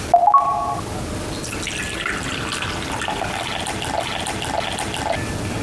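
Warm water at about 50 degrees is poured into a container, a steady rushing, splashing stream that runs continuously to the end, preceded by a few brief tonal beeps at the very start.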